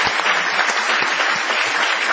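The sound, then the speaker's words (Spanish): An audience gives a live show an ovation, with a dense, steady clatter of many hands clapping throughout. “Aprovechemos el envión de esta ovación para saludar a Patricio Barton.”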